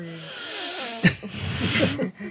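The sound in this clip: A man's voice imitates intense heavy breathing forced through clenched teeth. It opens with a brief voiced tone, then gives a few harsh, hissing breaths in quick succession over about two seconds.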